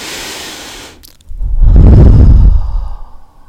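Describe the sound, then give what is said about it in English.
A slow breath in and a long, breathy breath out during a guided breathing exercise. A soft airy inhale comes first, then a fuller, louder exhale that swells and fades, with no talking. “Now, please close your eyes and let's inhale and exhale together.”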